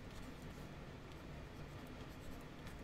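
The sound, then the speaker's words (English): Marker strokes squeak and scratch faintly and continuously across a whiteboard as a formula is written, with no voices. “So I'm going to write down the formula right here”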